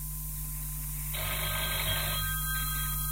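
A telephone rings on a radio call-in line: one bright, buzzing ring of about a second stands out above a steady low electrical hum, then stops.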